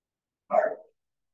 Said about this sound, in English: If you hear my dogs in the background, I apologize.